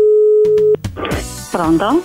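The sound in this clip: A steady telephone line tone on an outgoing call holds at one pitch for under a second, then cuts off abruptly, and a man starts talking over quiet background sounds.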